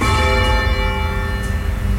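A church bell rung by pulling on its rope gives a loud, sustained ring rich in overtones, humming evenly with no break and no voices.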